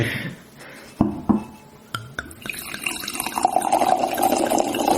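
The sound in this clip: Liquid pours from an opened bottle: a few short knocks and clicks come first, then a steady, splashing pour that grows louder and fuller toward the end.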